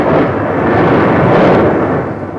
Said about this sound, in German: Ein Gewitter, sagst du.